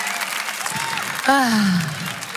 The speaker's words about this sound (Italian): Mi fate un altro enorme applauso